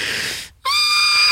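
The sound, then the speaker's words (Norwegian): A person vocally imitating a horse whinnying: a strained, breathy high-pitched cry, a brief silent break, then a loud, sustained wavering squeal. “kjør hest. Kom igjen, vær hest.”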